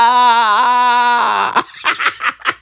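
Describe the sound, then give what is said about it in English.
A voice imitates an oversized newborn crying: a long, loud, wavering wail that breaks off, followed by several short choppy sobbing bursts. “This kid in my neighborhood sounds like that kid, right? Sounds like that fucking newborn who's the size of a one-year-old. This kid is out here crying like,”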